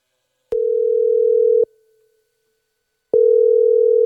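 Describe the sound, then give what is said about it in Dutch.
A phone call is placed and the caller hears the ringing tone: two loud, steady, mid-pitched tones about a second long, separated by a longer silence. The second tone is cut off at the end. “Ik besluit Junior even te bellen.”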